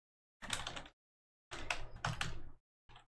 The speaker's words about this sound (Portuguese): Digitei que nem um animal aqui agora.